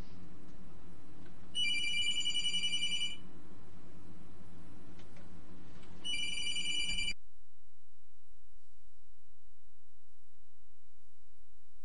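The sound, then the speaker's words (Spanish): A telephone ringing: two bursts of high, trilling electronic ringing over soft background music, with the second ring ending just as the sound drops to near silence. “Uy, perdón, que me está sonando el teléfono. Un segundo.”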